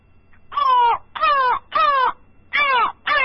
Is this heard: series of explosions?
no